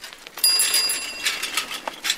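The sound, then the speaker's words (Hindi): A bicycle bell gives a bright metallic ring with a quick trill, followed by a scattered rattling noise. “Deepu आ रहा है, cycle की घंटी बजा रहा है।”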